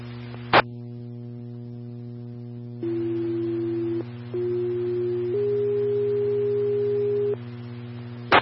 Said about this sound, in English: Farmington Ladder 2, Medic 3, standby for tone.